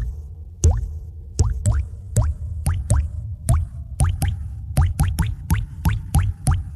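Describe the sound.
Water drips from a plumbing leak in a steady run of many sharp plops, each a quick upward-gliding blip over a low, constant background.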